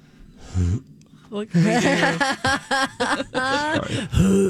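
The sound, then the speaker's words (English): Dry heaves: a person retches repeatedly in a series of strained, groaning vocal bursts separated by short pauses, loud and close. “We have to get that on our system. Dry heaves. Sound effect.”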